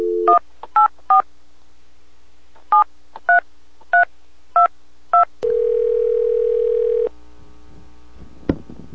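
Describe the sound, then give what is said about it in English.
Touch-tone telephone dialing beeps as a call is placed: a quick run of three tones, a pause, then five evenly spaced tones. A long steady buzzing tone follows, then a sharp click at the end. “So we're going to give Chris a call right now”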